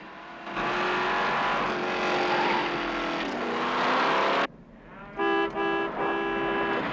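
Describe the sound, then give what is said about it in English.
Loud engine roar of a Cadillac driving off a track and across a field of cans, a sustained, heavy drone that holds for several seconds before cutting off abruptly. “A moment later, he drives off the track and across a field of cans.”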